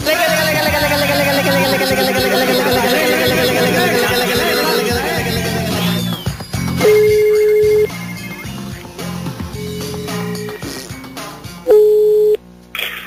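A telephone rings during a prank phone call, with several seconds of melodic tones followed by a few steady, loud electronic ring bursts separated by short gaps.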